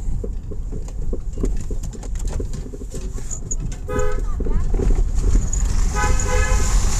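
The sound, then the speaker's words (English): Car horn honks while driving through a tunnel on the way to work. A few bright, pitched toots cut through a constant loud roar of road and engine noise. “as I honk through the tunnel to get to work”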